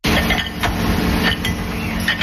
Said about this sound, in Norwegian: En stor maskin sjekker tallerkener som skal selges til Norge og andre land.